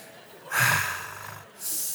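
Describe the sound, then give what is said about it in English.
Heavy, loud breaths from a preacher who is out of breath during a sermon: a long, rough exhale that slowly fades, then a second forceful breath. “I'm out of breath. I should have. Whew. I needed the Peloton a little bit more, y'all. Whew. Jesus, give me a second.”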